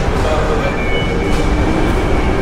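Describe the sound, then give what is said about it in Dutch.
A train rolls through an underground metro station in Brussels, reached by escalator, with a loud, steady rumbling roar and a faint high metallic whine throughout. “En terwijl dat je afdaalt, kom je terecht in de warme lucht van de metro.”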